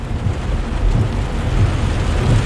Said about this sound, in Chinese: 啊？这不是下雨的吗？怎么跑啊？